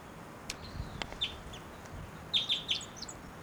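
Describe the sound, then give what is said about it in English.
Short, bright flight calls from a female wild bird: a few scattered chirps, then a quick run of three high calls near the end, all over faint background noise. “Wild bird, that might be the male in the back, but those flight calls were the female.”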